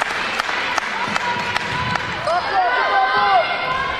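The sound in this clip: A basketball is dribbled before a free throw in a high school game: five sharp, evenly spaced bounces under a commentator's voice.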